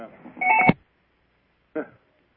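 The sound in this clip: A telephone line signal announcing an incoming caller: two short bursts of electronic tones, the first longer and louder, separated by a brief silence.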